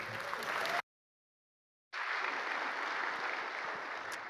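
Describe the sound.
Audience applause welcoming a speaker: dense, steady clapping that drops out for about a second of silence, then resumes just as full and continues to the end.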